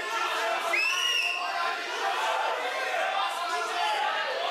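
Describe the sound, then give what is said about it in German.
A crowd of thousands gathers on the main square in Yerevan to protest against the ceasefire. The massed voices form a fairly faint, continuous murmur of chatter, and a brief rising whistle sounds near the start. “Was Sie hier hören, sind die Proteste in der armenischen Hauptstadt Erevan. Da sind kurz nach der Verkündung der Waffenruhe tausende Menschen auf den Hauptplatz geströmt, um dagegen, also gegen die Waffenruhe zu protestieren.”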